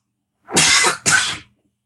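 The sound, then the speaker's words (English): A person coughs twice in quick succession, two loud, harsh, rasping bursts, the first longer than the second, standing alone against silence. “We're not dying, by the way, over here. I think everyone just has a cough, so I apologize.”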